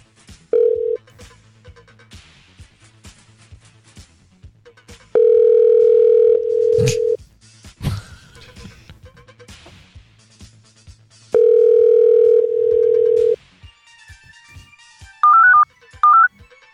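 Ringback tone of a phone call placed over Bluetooth: two long, steady ringing tones separated by a pause, over faint background clicks, ending with a few short, higher beeps.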